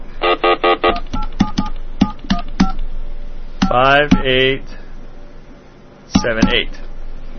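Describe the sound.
Touch-tone keypad dialing a telephone number, a quick run of many short DTMF beeps in steady succession, followed by a voice talking and a last few tones.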